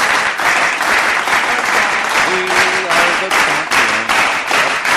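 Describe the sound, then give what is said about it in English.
A slow clap spreads through an audience as many hands strike in a quick, steady rhythm, with faint voices rising in the middle. “What is that? That sounds like a slow clap that starts. You know, we had a few people start clapping, and then the rest of them go.”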